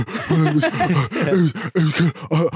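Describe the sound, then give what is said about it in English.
A voice imitates an out-of-breath football player panting at half time, making many quick, rhythmic, breathy gasps mixed with voiced groaning tones, loud and in short bursts. “half time players are out of breath and go,”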